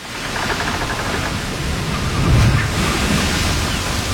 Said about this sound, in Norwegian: Vi ute på sjøen i Karibien.